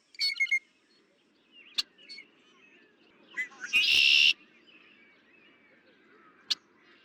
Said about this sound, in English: Blue jay.